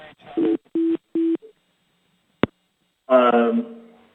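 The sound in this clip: A telephone line tone sounds after a caller's call dropped: three short, evenly spaced buzzing beeps, then a brief click, silence, and a voice speaking.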